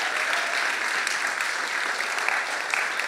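A church audience applauds its volunteers with steady, dense clapping that stays even and continuous across the seconds, with no pauses.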